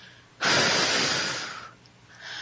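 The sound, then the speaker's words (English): A deep breath taken during a guided breathing exercise: a loud, airy inhale lasts over a second, then a short quiet hold, then a softer exhale as the breath is released. “And once again, number two, breath in. Hold it and release.”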